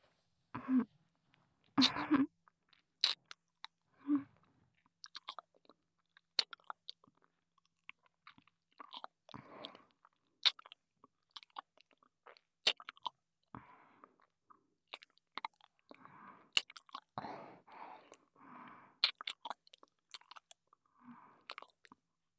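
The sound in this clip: Chewing food while eating: many soft, irregular moist chews and small crunches with short pauses, continuing steadily and quietly throughout.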